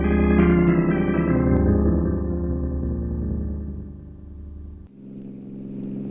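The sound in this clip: A car engine roars as the car speeds too fast toward a turn: a loud, steady drone with rich layered harmonics that sag slightly in pitch before an abrupt shift in tone near the end.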